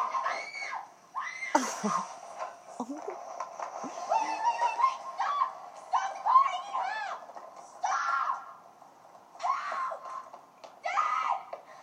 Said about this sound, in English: Cue screaming.